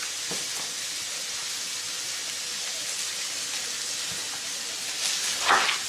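Food fries in a pan with a steady, bright hissing sizzle throughout and a few faint knocks, swelling slightly near the end.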